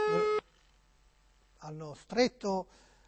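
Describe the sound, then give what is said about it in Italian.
A short burst of electronic telephone ring tone on a call that goes unanswered, followed after a pause by a person speaking. “Altri due squilli e poi si chiude.”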